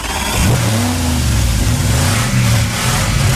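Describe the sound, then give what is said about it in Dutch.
A car engine revs hard as the driver accelerates, a loud, throaty roar that surges upward in pitch and then holds steady before climbing again with a second push of the throttle. “Lekker even gas geven nog.”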